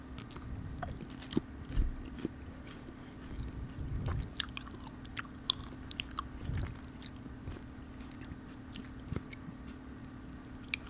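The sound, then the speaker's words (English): Faint crisp bites and chewing of a whole, regular-sized sugar snap pea, many small scattered crunches and squishy clicks with no talk over them. “They're decent size, regular size peas, so here we go.”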